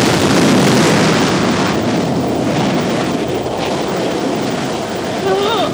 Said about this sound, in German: Triebwerke volle Leistung. Eins, null. Wir sind gestartet.